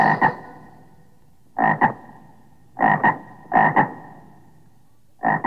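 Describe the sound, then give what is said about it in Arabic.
A frog croaks alone in five separate bursts, each a quick double croak with a raspy, mid-pitched tone, separated by irregular silent gaps. “ضفدع ضفدع نق نق، اسمع اسمع نق نق”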